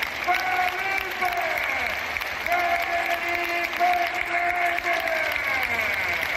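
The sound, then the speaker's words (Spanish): Sustained crowd applause fills a basketball arena as a team captain is welcomed for a farewell, a dense, steady clatter of clapping that stays loud throughout, with tonal, voice-like cheering layered over it. “Recibamos con un fuerte aplauso a nuestro gran capitán”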